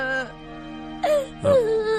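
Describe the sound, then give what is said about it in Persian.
A young boy cries in a few short, wavering whimpers and wails with voiced, moaning tones, separated by brief pauses. “ایبی نداره پسرم، گریه نکن.”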